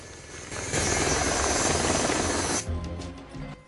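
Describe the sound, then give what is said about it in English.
Helicopter rotor and engine roar from an aircraft over a forest, with circular saws hanging below it for trimming trees. The loud, steady roar swells early, then thins to a pulsing chop near the end. “Looking up, he notices a helicopter above him. An arrangement of circular saws hang below the aircraft for trimming trees.”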